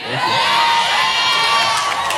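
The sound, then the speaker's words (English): A live studio audience cheering, whooping and shouting in one continuous loud roar that holds steady throughout. “All right, ladies and gentlemen, a live studio audience in the building.”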